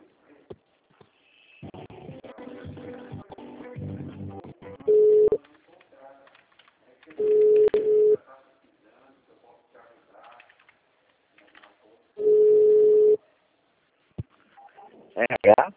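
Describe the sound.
Telephone ringback tones sound while a call is transferred to an HR extension: three steady, mid-pitched beeps spaced several seconds apart, with faint muffled sounds between them.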